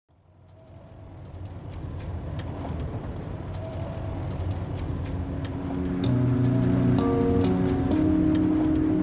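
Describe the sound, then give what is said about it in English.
A car drives through farmland outside Lemoore, California, its engine and tyres giving a steady low rumble that slowly grows louder. A few sustained tones join in during the last seconds. “Driving through farmland outside Lemoore, California.”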